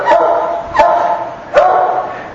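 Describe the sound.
Barking from a very old dog in the background: three loud, evenly spaced barks, each with a short whining tail.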